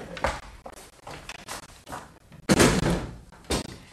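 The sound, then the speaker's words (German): Windows being shut in a classroom make a run of wooden thumps and knocks. Several sharp impacts come at uneven intervals, with one louder bang past the midpoint. “Bitte schließen Sie die Fenster. Ach, Frau Doktor, muss das sein? Bei dem schönen Wetter? Also nun machen Sie schon.”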